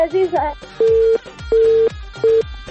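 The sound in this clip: A listener's phone call to a radio show cuts off. A brief voice is followed by three loud, evenly spaced, steady mid-pitched disconnect beeps.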